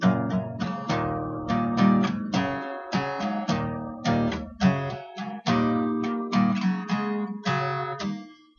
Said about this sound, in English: he just plays the bass notes of the chord, so it kind of sounds like this.